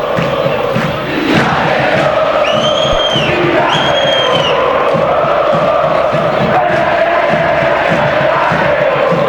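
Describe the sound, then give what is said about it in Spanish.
Olimpia football fans rising and cheering in the Defensores stadium, a sustained loud roar of crowd voices with a couple of high whistle tones early on. “Y ahora sí, escuchen ustedes, se puso en pie el público Olimpia.”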